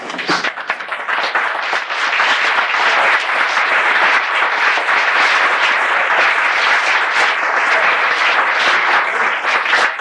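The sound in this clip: Applause greets a guest, the wife of Alaska's junior senator, during a session in the Alaska House. The clapping is loud, dense and sustained for the whole stretch, with no talk over it.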